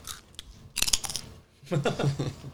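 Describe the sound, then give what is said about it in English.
Crunchy bites of a cracker being eaten: a few crisp, crackling bursts separated by a short pause, moderately loud and with no talk. “Do we need a palate cleanse? Take a cracker.”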